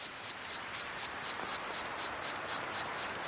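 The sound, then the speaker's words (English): Modeled calls of insects that lived alongside the dinosaurs about 165 million years ago in a forest: high, pure chirps pulse at a quick, even rhythm over a faint hiss, with no voices. “Scientists have modeled the calls of insects that lived alongside the dinosaurs.”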